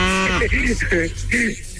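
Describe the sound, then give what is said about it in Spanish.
A man's voice imitates a cow mooing in a few drawn-out, low voiced calls, each steady in pitch, one after another. “A ver, ¿cómo le hacen las vacas? Es importante, men. Pues le estás haciendo como buey.”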